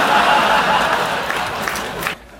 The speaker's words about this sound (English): Yeah, he's the one clapping in the back right there.